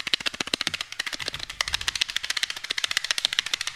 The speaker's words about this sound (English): Yes, bought a pack. Right here. And I'm going to shake the pack.